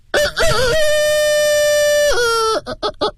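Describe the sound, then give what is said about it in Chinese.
A human voice imitates a rooster crowing: a wavering opening, then a long held high note that drops sharply at the end, followed by a few short clipped sounds. “比如说这个公鸡打鸣 啊，公鸡打鸣， 公鸡打鸣。”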